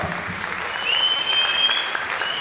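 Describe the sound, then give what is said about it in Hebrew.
Audience applause for a contestant at a quiz competition final: steady crowd clapping that swells slightly partway through, with a high, piercing whistle ringing out over it. “מחיאות כפיים, ישר כוח גדול”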